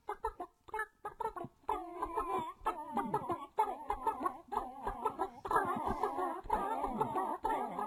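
Chicken clucking set to a novelty Christmas song: choppy, rhythmic bursts of clucks that repeat steadily at moderate loudness, with short gaps early on before the clucking runs more continuously.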